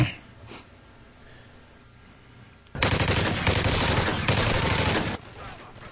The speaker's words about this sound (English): Tonight, a real life gun range straight out of a video game.